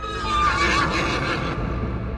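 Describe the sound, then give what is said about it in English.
A horse's whinny, voicing a unicorn, rings out loud and alone as one high, wavering neigh that trails off into a lower, breathy tail. “The unicorn opened his lips and whinnied.”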